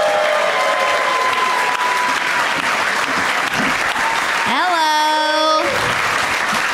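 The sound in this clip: An audience applauds and cheers as guests come out on a comedy talk show. The clapping stays loud and unbroken, crowd voices mix in, and a brief rising whoop-like tone rings out near the end.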